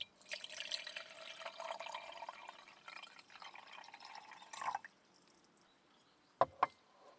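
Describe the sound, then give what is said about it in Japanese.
Hot water being poured into a container while cooking makes a faint, steady trickling stream for about five seconds. After the pour stops, two brief drips follow. “こちらに移して、お湯を注ぎます。”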